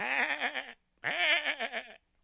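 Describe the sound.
A sheep bleats twice. Each call is a wavering, nasal cry lasting under a second, with a brief silent gap between them and nothing else around.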